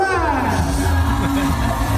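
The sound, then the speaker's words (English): A crowd screaming excitedly at a university music event, a loud, unbroken wall of yells, whoops and shouts with no pauses. “Are you excited for her? Everyone screams.”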